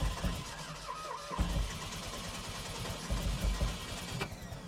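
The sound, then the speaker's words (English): Engine cranking and catching on a classic Fiat 500 with a cable-driven starter and no solenoid, after sitting unused for many months: a steady, rough mechanical churn with a few sharp knocks, heard alone without talk. “So ignition on, give it a couple pumps of gas. Oh no, I said one, it's gonna be two.”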